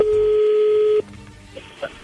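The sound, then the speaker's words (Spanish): A telephone call being dialed starts with a steady, loud, low tone held for about a second. It cuts off sharply and is followed by a couple of faint, brief beeps over a quiet line. “A ver, bueno, voy a entrar ahí la llamada, vamos a ver si Zuleika te manda los chocolates a ti”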